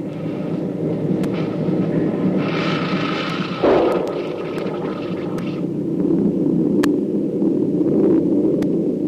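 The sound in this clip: A torpedo fired from a submarine and hitting its target: a steady, heavy rumble with a sudden deep thump partway through, then the roar continues, dotted with sharp clicks.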